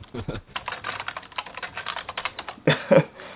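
A search being typed on a computer keyboard: rapid, uneven keystrokes clicking one after another, ending in a few heavier key thuds.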